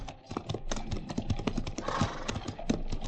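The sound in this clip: Horses on a long night ride toward a fort, walking and trotting, produce many steady clip-clop hoofbeats in an even, repeating rhythm at moderate loudness.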